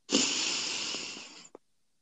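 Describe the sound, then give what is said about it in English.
A deep breath drawn in through the nose: a bright, hissing inhale lasts over a second and gradually fades, followed by a tiny soft click, with no talk. “Another deep breath through the nose.”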